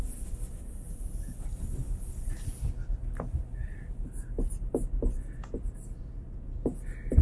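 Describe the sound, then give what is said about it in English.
Writing being erased from a board: soft, dry rubbing strokes at the start, then quieter scattered taps and light handling noises. “I'm going to need a lot of space. I'm going to erase what I've written so far.”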